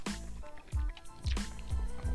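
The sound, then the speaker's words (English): A person sipping water: several soft, wet gulping and swallowing sounds in quick succession, fairly faint and without talk. “Excuse me as I take an unprofessional sip of water.”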